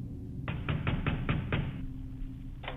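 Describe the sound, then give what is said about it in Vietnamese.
Loud knocking on a door: a quick run of several heavy knocks, then a short pause before one more knock, each a sharp, hollow thud against a quiet background. “Không có lời đáp, chỉ là những tiếng gõ. Lần này thì mạnh cứ như là người ta đập cửa nhà mình.”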